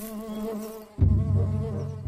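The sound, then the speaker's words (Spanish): Bees buzz at a beehive among tree trunks, a steady droning hum that shifts abruptly to a lower, rougher buzz partway through. “por fin vio entre unos troncos un panal de abejas.”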